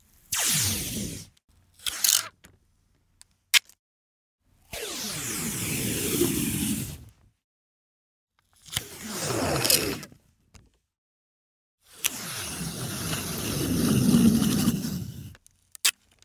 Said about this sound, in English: Here's the answer. That was the sound of peeling scotch tape.